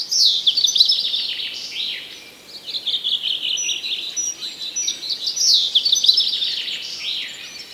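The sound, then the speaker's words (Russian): A dawn chorus of songbirds sings with dense, overlapping high chirps, trills and whistles that run almost continuously, easing briefly in a short lull before swelling again. “Мы не знали до сих пор, как прекрасен птичий хор. Запевает хор чуть свет, и кого здесь только нет.”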